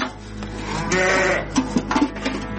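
Sheep of the Arashan breed bleat on a farm with pregnant ewes. A drawn-out bleat is followed by a few shorter, wavering calls, loud over a steady low hum.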